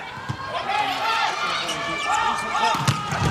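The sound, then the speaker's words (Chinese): A volleyball serve by the Chinese team in the second set of a match lands as a sharp slap amid steady crowd noise, with a commentator talking over it. “来看双方的第二局，中国队来发球”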